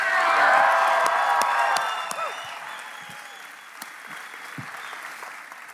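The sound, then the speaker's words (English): An audience applauds to welcome a pastor, with loud clapping and a few cheers at first that thin out into scattered claps. “Would you put your hands together and please help me welcome Pastor Chris Beal.”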